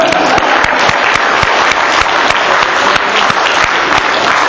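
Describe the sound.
An audience at a gathering breaks into applause, many hands clapping in a loud, busy patter that holds steady throughout.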